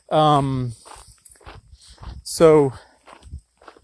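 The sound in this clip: Footsteps crunch on a freshly graded rocky road with small rocks sticking up as someone walks and kicks a ball, with scattered gritty steps and two short, loud voiced sounds over the scraping.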